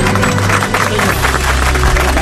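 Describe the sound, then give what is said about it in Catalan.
A standing audience applauding: dense, loud, continuous clapping that holds steady for the whole moment. “És que, a veure, drets aplaudint, ara deixo.”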